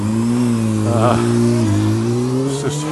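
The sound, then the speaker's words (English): A Honda motorcycle pulls away: a steady, buzzing engine drone with shifting pitch and a short rev swell midway, continuous and fairly loud throughout. “it's a Honda motorcycle pulls away.”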